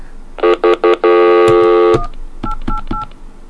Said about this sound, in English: Okay. I'm going to try it one more time. Okay. Maybe I dialed wrong.